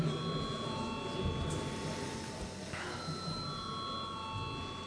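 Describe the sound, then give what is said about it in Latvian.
An electric bell rings in a parliament chamber to call deputies to a vote, a steady sustained tone that shifts slightly partway through and continues for the full five seconds over a low murmur of background noise. “Deputāti prasa balsojumu, lūdzu zvanu.”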